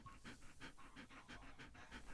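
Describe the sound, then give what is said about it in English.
A female puppy pants in rapid, steady, rhythmic breaths, soft and faint, with no voices. “That truly is a panting pupper.”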